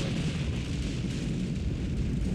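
A person explodes in a comedy sketch as a sound effect: a sustained, low, rumbling roar of even loudness with no sharp onset. No one speaks over it.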